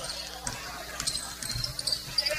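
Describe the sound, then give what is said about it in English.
A basketball dribbled on a court during a game, a few dull bounces thudding under ongoing talk and faint court noise. “He's going to dribble it out.”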